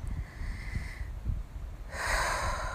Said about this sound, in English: So I guess we begin with just an exhale.